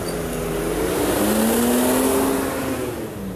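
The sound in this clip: A bus engine runs with a steady, loud rumble and broad hiss, its low tone climbing slightly and holding before easing back, with no talking.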